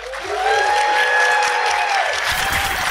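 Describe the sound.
Audience applause welcomes a live panel at DragCon LA 2019, a loud, dense wash of clapping that swells and holds steady, with cheering and whoops mixed in before it starts to thin out.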